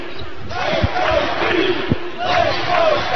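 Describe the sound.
Arena crowd at a college basketball game chanting "Let's Go" in rhythmic sung phrases over a steady background roar, with a couple of low thumps punctuating the chant.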